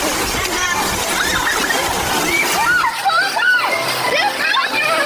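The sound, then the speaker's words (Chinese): Children splash through water in a water fight in the fields, with constant splashing and sloshing under their excited shouts and chatter. “你们看，他们就在那儿打水仗呢， 好好玩，看起来，对啊。”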